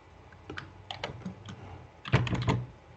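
Typing on a computer keyboard: scattered, irregular keystrokes, then a quick burst of several louder presses near the end, with no talk.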